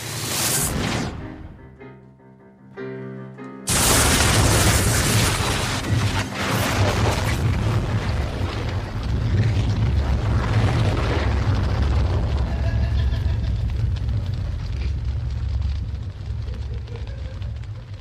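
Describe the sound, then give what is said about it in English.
A small gun fires to blow a hole in the side of a building. A sudden heavy boom breaks in after a short lull, then a loud, sustained rumbling roar continues for many seconds. “What the hell are you gonna do with the cluster's smallest gun? I'm gonna blow a hole in the side of this building.”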